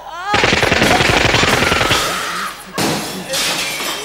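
A rapid burst of automatic gunfire rattles out as warning shots during a robbery, loud sharp evenly spaced cracks for under two seconds, then fading into a crashing, shattering impact and further rough noise.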